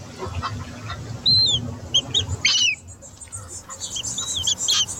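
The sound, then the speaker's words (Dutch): Breeding Caspian gulls, a fairly large gull species, give many sharp, high squawking calls in irregular bursts over a low, rumbling background. “Met daarin dus ook broedende Pontische meeuwen. Een vrij grote vogel.”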